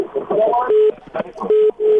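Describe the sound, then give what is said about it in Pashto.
Telephone call disconnected on a radio call-in line: a muffled voice comes through the line, then three short, steady electronic tones of the disconnect signal. “خیر، ټلیفون قطع شو.”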